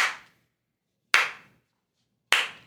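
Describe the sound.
Slow applause of three single hand claps, sharp and evenly spaced about a second apart, each fading quickly into silence.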